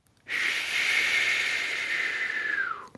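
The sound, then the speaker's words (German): A deep breath is taken, held, and slowly let out. It comes as one long, steady airy hiss lasting over two seconds, falling in pitch as it ends. “Einmal tief einatmen, Luft anhalten und langsam wieder rauslassen.”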